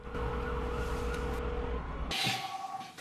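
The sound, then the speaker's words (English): An ambulance arriving at a hospital gives a loud, steady droning siren tone over deep engine rumble, which cuts off near the end into a short bright hiss. “As an ambulance arrives at the hospital”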